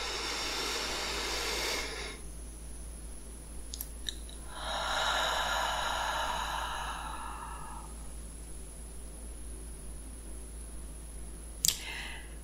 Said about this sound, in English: Let me just take a deep breath.